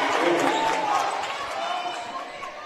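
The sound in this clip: Basketball bouncing on a court during a women's game between the Warriors and the Gators, heard as dull thuds under a steady wash of crowd and gym noise.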